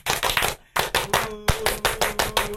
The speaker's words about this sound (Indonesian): Sekali lagi itu tepuk pramuka, bukan salam pramuka.